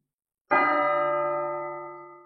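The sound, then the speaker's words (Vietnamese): A large bell struck once, its loud, rich clang sounding alone and then ringing on in a long, slowly fading hum of layered tones. “Chuông lớn ngân vang, gợn sóng lại khuếch tán”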